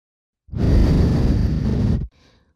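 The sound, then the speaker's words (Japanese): One long, steady breath is blown close into the ear in a soft, breathy rush lasting over a second, cut off abruptly and followed by a faint, brief trailing puff. “お耳の中、ふうふうされるのって気持ちいいでしょ？私の息が、”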